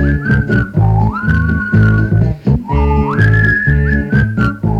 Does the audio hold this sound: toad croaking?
no